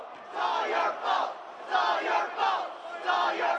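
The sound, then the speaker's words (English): Rhythmic chanting from a student crowd at a University of Illinois college hockey game at an ice arena, aimed at Indiana players after a goal. Loud shouted phrases repeat in a steady cadence of several bursts with brief gaps. “Turning to the hapless Indiana players who have just allowed an Illini goal, they begin the chant that will be heard several times during tonight's game.”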